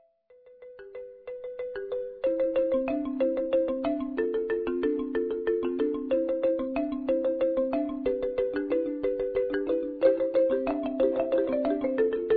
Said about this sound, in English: the happy sounds of marimba. You can't. Yes. You can't be sad and listen to marimba.